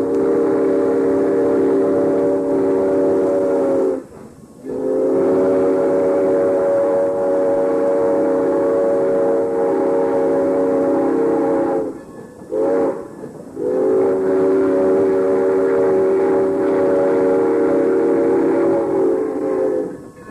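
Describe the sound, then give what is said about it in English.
A diesel locomotive backs a train into a station, its engine a loud, steady droning hum with strong tonal layers that runs throughout, broken by a few brief dips in level. “they're going to back up the diesel into the station again so that we can go back”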